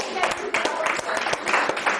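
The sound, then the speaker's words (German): Applause from an audience at a lively event, brisk clapping mixed with voices talking over it, loud and busy throughout the brief moment. “Flippi, ein Applaus für Flippi.”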